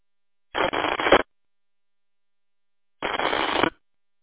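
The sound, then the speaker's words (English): A ham radio transmitter is keyed up twice while too far from the repeater. Two separate buzzy, static-filled bursts, each lasting under a second, are divided by silence. “Aaron, it sounds like you keyed up twice. Maybe you're a little too far away from the repeater.”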